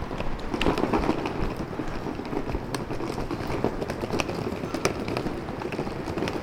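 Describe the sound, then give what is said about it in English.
A rolling suitcase dragged over cobblestones on a street in Rome makes a continuous rattling clatter of dense, irregular clicks and knocks at a steady, fairly loud level throughout, with no voices. “That is the sound of a rolling suitcase being dragged over cobblestones.”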